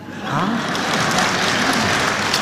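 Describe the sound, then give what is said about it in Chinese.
Applause from a comedy show audience: a dense, even wash of clapping that swells up at the start and holds at a steady, fairly loud level to the end. “说实在大家鼓掌还有一方面意思。”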